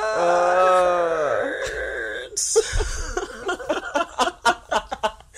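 A collective uterus groan, a drawn-out vocal moan sliding downward in pitch, then a run of short, choppy breathy bursts, loud and unrestrained.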